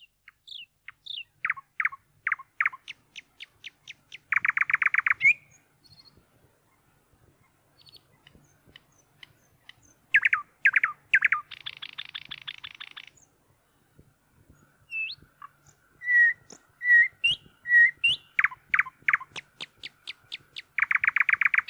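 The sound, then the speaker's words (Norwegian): A nightingale singing: loud, high, rapid bursts of repeated notes and trills in separate phrases broken by short pauses, with a few faint calls in between and no voices. “Nattergal.”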